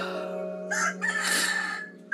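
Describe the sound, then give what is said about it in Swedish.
A rooster crows once, a loud harmonic call lasting about a second, broken into a few short bursts over a steady low hum. “Det är ett klassiskt avslut när du skriker på tuppen.”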